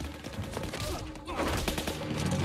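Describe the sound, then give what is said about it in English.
Gunfire from a pistol during a fight, heard as a rapid run of sharp, loud cracks over a dense, noisy backdrop of action. “He runs through the smoke, punches out a militiaman, and downs two more with a pistol.”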